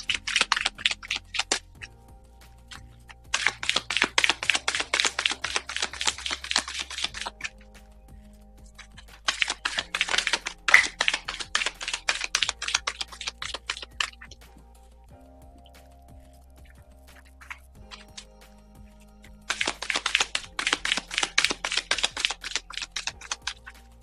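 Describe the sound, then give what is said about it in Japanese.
Oracle cards are shuffled and drawn in four bursts of rapid, crisp riffling clicks. Quieter stretches with soft handling noises separate the bursts. “それでは今日のオラクルカード引いていきましょう。”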